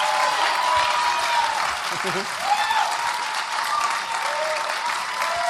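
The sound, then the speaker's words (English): Audience applause at a live show in New York City: dense, sustained clapping from a large crowd, steady and loud for the whole stretch with slight swells and dips and no pauses. “Can you take that in? Can you take in that applause?”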